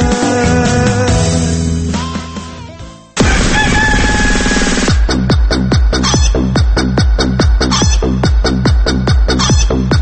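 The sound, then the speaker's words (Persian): A rooster crows in the morning with loud, harmonic calls that fade out. A steady rhythmic pulsing beat then takes over. “این صدای خروس بامدادی صبحانه با خبر ماست”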